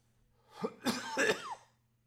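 A person coughing and clearing a scratchy throat: a few short, rough bursts in quick succession, fairly faint and heard alone without talk.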